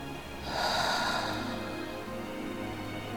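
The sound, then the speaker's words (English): A deep breath drawn in through the nose and let out through the mouth during a guided breathing exercise. It comes as one airy surge that swells and then eases back, over steady low background noise. “So take a deep breath in through your nose and out through your mouth.”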